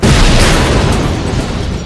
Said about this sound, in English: Then another motorcycle detonated as its fuel tank was ruptured.